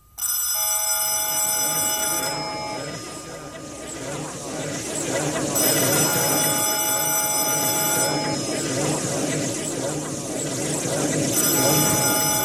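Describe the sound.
A telephone rings in three long, bright bursts separated by pauses, the last cut off at the end, over a steady murmur of voices.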